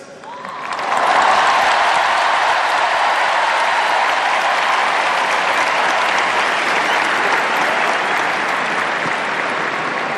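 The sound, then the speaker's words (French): A huge crowd roars and applauds at the Stade de France to welcome the Pope. After a quieter opening second the noise swells abruptly into a loud, sustained, unbroken wall of clapping and cheering that holds to the end. “La foule du Stade de France qui scande le nom du Saint-Père.”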